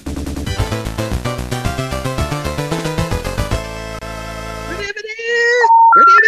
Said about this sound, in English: Okay, ready to dial this number? There we go.